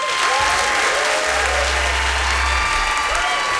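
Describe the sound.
Loud, dense audience applause greets a performer returning to the stage at a live show, a continuous wash of clapping that holds steady throughout.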